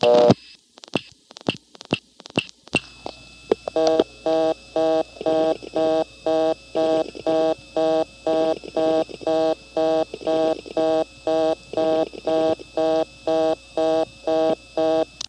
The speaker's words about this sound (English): You could hear some dialing over the reorder tone there.